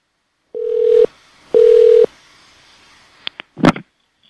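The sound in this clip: Telephone tones on a hotel phone line during a call transfer: two steady, mid-pitched half-second beeps separated by a pause, followed by a few sharp clicks and a brief crackle on the line.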